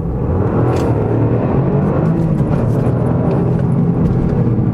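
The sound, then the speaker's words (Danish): A car accelerating hard with quick gear changes on a road with hairpin bends, heard as a loud, steady engine rumble with road noise. “Men nu skal I få en acceleration, og nu skal jeg være hurtig på gearskiftet.”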